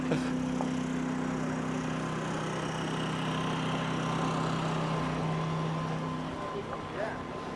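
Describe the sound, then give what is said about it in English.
A generator runs at a campsite with a steady low engine drone and an even hum that holds for the whole stretch, while voices talk over it. “We're cutting through someone's campsite right now. I can hear the generator.”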